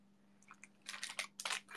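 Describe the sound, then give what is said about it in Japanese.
Crunchy chewing of hard gummy candy: a couple of faint bites, then a dense run of louder crisp crunches. No talking. “この星野さんに教えてもらったんだけど、このペタグっていう、あの、硬いグミがあるんですよ。ありがとう。これがね、美味しいんですよ。”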